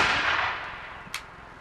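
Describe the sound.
A musket volley fired on command at a historical reenactment: a broad roar that is already fading, dying away over about half a second, then one short, sharp crack.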